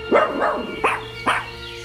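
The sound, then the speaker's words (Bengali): A dog barks in a courtyard, four sharp, mid-pitched barks: two close together, then two more spaced after short pauses, over a steady low background hum. “শেরির গলা কানে আসছে উঠোনের দিক থেকে, চিৎকার করছে কুকুরটা। আওয়াজটা অদ্ভুত না? কুকুরটা আবার কার উপর হম্বিতম্বি করছে কে জানে।”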